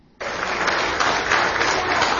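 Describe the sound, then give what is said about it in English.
Crowd applause at a political event honoring a congressman's parents, bursting in abruptly after a brief silence and continuing as steady, dense clapping to the end. “Where are his mom and dad? Let's give them a round of applause.”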